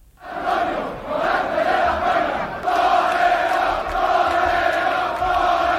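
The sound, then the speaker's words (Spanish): Crowd in the streets of Seville cheering and chanting as bullfighter Morante de la Puebla is carried on shoulders from the Maestranza bullring to the Hotel Colón after a Corpus bullfight, a loud, continuous roar of voices. “Y en Sevilla resuenan los ecos de la Puerta del Príncipe que abrió ayer Morante de la Puebla en la Plaza de Toros de la Maestranza en una corrida de Corpus recuperada. Este es el sonido de anoche, camino el diestro a hombros del Hotel Colón.”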